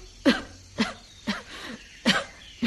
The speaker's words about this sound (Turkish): Öksürüyorsun Helen.